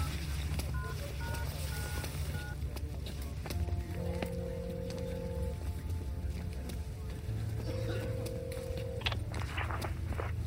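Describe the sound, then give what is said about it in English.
A telephone number being dialed: a quick run of short keypad beeps, then a few longer, steadier tones over a low background hum. “I dialed the number.”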